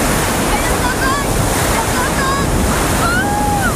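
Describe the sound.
Sea waves wash continuously as someone wades into cold water, a loud, steady roar of surf mixed with rushing wind noise from start to finish.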